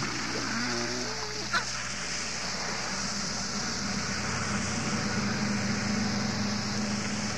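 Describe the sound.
Water jets spray backward from a boat while its blower runs, making a steady, dense hiss and roar throughout with one brief knock early on.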